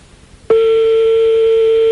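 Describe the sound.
A steady telephone tone rings on an outgoing call, starting abruptly after half a second of near silence and holding loud and unbroken to the end, with no voices.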